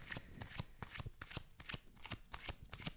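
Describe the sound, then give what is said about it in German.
A deck of cards is shuffled by hand, producing many quick, crisp riffling and slapping bursts in an uneven rhythm, faint and with no talking. “Du darfst es kurz mischen.”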